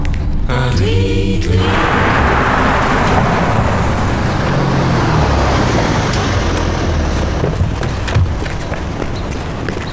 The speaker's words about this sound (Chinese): 快走，走， 好好开车。